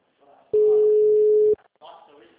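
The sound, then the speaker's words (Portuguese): Telephone dial tone heard while placing a call, a loud, steady single-pitch tone holding for about a second, with people talking just before and after. “Vou ligar rapidinho pra...”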